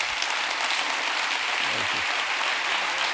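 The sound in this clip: A church audience stands and applauds to welcome a guest speaker. The clapping is loud and continuous, a steady wash of many hands with no break.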